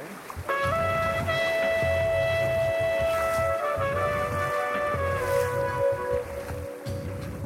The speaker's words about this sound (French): c'est le torrent de fonte, hein, du glacier. Donc une eau un peu turbide, donc on ne va pas toujours en mettre les pieds.